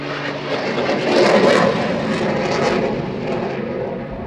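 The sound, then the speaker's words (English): Military aircraft flying overhead, a broad roaring rush that swells to a peak early on and then slowly eases off while staying loud, with no voices. “I never understand people who complain about the noise of military aircraft operating.”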